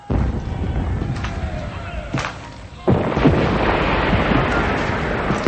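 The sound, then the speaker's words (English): Cannons blast in an open field during a battle between the Continental Army and Redcoats, two heavy booms each followed by a deep, sustained rumble that keeps the sound loud between them. “Cannons are blasting in the field across the road from the mansion.”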